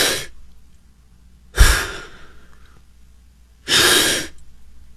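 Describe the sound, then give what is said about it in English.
Exaggerated deep breathing, heard as a few loud, breathy whooshing inhales and exhales spaced well apart, with quiet pauses between them and no talk. “And then you're supposed to take really exaggerated breaths.”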